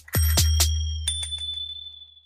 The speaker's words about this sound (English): Ringing my bike bell.